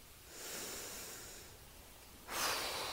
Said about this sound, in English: take a deep breath with me now